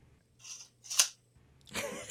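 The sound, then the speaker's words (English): A tape measure being worked: three short bursts, a soft hiss, then a sharper, brighter snap, and finally a longer rattling slide. “What, is that a tape measure? Yeah.”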